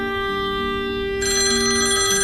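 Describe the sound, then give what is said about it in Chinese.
Telephone ringing with a steady, continuous electronic tone that grows brighter and slightly louder partway through. No voices are heard. “啊，不好意思，我接个电话。”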